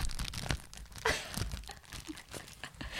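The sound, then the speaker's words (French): Paper stationery and masking tape are handled for a journal in an ASMR session, giving close crinkling, rustling and tearing with several sharper crisp bursts. “On va trigger euh, les, les, fans d'ASMR euh, papeterie.”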